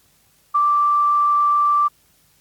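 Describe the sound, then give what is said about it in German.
A single electronic beep from a school's answering machine: one steady, clear mid-pitched tone held for just over a second, loud and alone with no talk around it. “Bitte hinterlassen Sie Ihre Nachricht nach dem Ton.”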